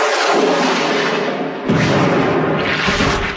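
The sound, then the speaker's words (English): An explosion blowing someone to smithereens: a loud, broad roaring blast that fades slightly, then surges again in a second heavy burst about halfway through before tailing off. “He's gone! Yes, he's gone! Blown to smithereens, blasted out of existence, yes.”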